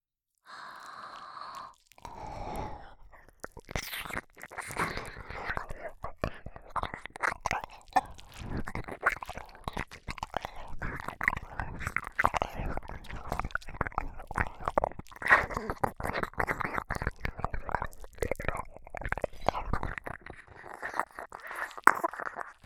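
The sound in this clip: Wet chewing and mouth sounds of eating an ear in an ASMR roleplay: many soft smacks, clicks and crunchy bites run densely and continuously at an even, close, quiet level.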